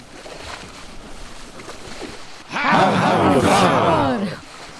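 A sailing ship casts off and sets out on the last of the flood tide. A low, steady rumble gives way midway to a sudden loud surge of dense creaking and rushing sound, which holds for about two seconds before easing off.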